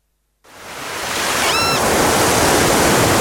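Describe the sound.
Sea waves wash in at a seaside resort in Baško Polje on the Makarska riviera. After a brief silence, a broad hiss fades up and swells into a loud, continuous roar.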